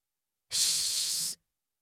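A gentle wind blowing into a room, heard as a single short, soft airy hiss that starts and stops abruptly.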